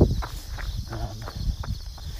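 Footsteps during a 3 mile run-walk, a steady rhythm of repeated thuds at an even pace over a continuous faint hiss.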